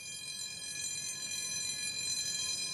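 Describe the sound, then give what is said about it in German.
A canal lock gate, fresh from the shipyard, moves again after repair work, giving a continuous, even mechanical rumble topped by a layered, high-pitched whine that holds steady throughout. “Nach weiteren Arbeiten fährt das Schleusentor wieder.”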